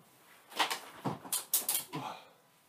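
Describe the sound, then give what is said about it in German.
A window is pulled shut, producing several quiet clunks and rattles in a short, uneven sequence that ends in a final soft knock. “Muss mal ein Fenster zumachen.”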